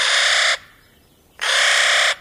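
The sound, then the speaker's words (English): Two harsh, grating caws from a nutcracker, a crow and raven relative that picks pine nuts from limber pine cones near tree line. The calls are loud, each lasting under a second, with a short quiet gap between. “but its voice doesn't really match up with its sophisticated outfit. They're related to crows and ravens, but their caw is even less mellifluous.”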